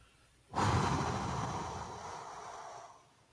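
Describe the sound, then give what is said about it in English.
A long breathy exhale through the mouth during a calming breathing exercise starts abruptly, holds strong and steady for about two and a half seconds, then tapers off. No one speaks. “I breathe in through my nose quickly, and then I breathe out with a long exhalation through my mouth.”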